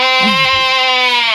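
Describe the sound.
A human voice imitates a cow's moo: a single drawn-out, nasal, steady-pitched tone lasting just over a second, loud and heard alone.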